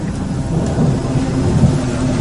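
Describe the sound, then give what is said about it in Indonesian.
Heavy rain pours in a dense, constant hiss while low thunder rumbles beneath it, loud and unbroken throughout with no voices. “Karena memang hujan saat itu cukup besar.”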